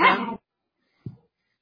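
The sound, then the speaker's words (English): A dog gives one loud, short bark, followed a moment later by a brief, much fainter yelp, with silence around both. “Sorry, my dog is barking.”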